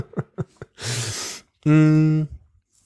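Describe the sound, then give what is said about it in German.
A soft breathy exhale of about half a second follows a few short quiet breath sounds, then a brief voiced, hum-like sound trails off; no words are spoken. “Könntest ausatmen.”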